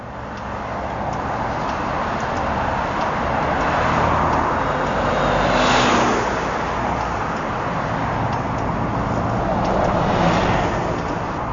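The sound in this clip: Busy street traffic roars at a corner by a Caltech station on a Sunday, a broad, continuous rumble of passing vehicles with a couple of louder swells, and no voices.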